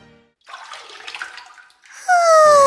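Water splashing in a bathtub, an irregular watery sloshing that lasts over a second. A bright, steady tonal sound with a low buzzing layer comes in loudly at the end.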